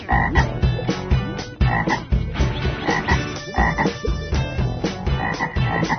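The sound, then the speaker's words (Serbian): Frogs croaking together by a stream, a dense, steady chorus of rasping, pulsing croaks that overlap continuously and loudly with no talk. “Pa onda da se žabe skupljaju i da pevaju.”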